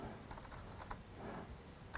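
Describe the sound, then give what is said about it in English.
Typing on a computer keyboard while entering a search on a shopping website: faint bursts of quick keystroke clicks, with short pauses between runs. “let's see what happens if I just type in thank you notes. All kinds of thank you notes. What if I do thank you”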